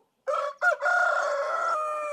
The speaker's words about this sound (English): A rooster crows, a cow moos in the distance, mist rises from the pond.